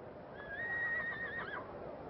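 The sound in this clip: A donkey's call, a single high, drawn-out whinny-like cry lasting about a second, heard alone over a faint steady background hiss with no talking.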